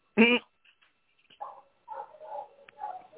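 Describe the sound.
A neighbor's dog in Belize gives one short, sharp bark, followed by a few fainter, muffled sounds.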